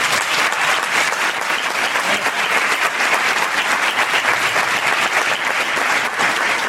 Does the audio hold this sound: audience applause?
yes

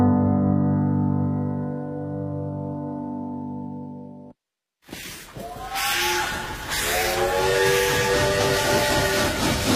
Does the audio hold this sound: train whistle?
yes

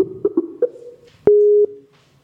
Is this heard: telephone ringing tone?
yes

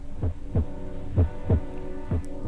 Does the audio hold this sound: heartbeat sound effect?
yes

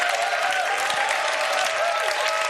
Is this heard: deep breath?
no

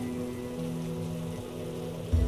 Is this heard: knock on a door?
no

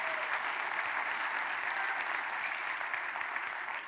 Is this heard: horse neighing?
no

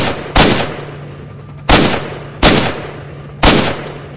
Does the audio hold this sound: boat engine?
no

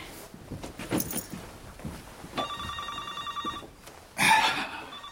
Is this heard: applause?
no

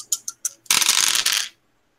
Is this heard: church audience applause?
no

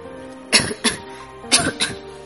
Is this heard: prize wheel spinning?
no

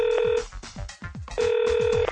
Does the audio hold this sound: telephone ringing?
yes

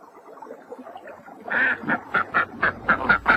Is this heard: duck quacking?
yes

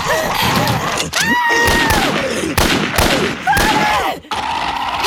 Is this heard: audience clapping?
no

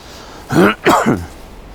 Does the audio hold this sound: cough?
yes

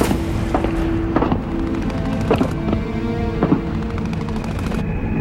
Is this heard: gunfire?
yes

